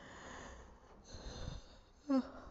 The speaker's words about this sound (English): sorry, yawn of the day.